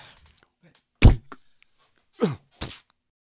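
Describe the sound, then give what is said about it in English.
A toe stubbed against something in the dark lands as one heavy thump, followed by a brief voiced outcry and a smaller, shorter burst. “I stubbed my toe. Yeah, it sounded really bad, that one.”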